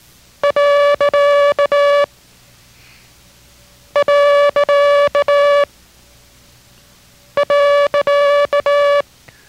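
Morse code tone sends the period character three times. Three identical groups of alternating short and long beeps sound on a steady mid-pitched tone, with clear silences between the groups.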